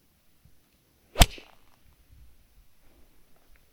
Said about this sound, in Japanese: これ今皆さん音聞こえました？ちょっと高めになったの分かりますか？もう一度いきますよ。220の7番アイアンいきます。